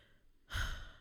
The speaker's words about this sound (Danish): Ja, der kom lige den der lydeffekt, vi skal have på. Ja, vi skal lige have indspillet godt gab og putte på.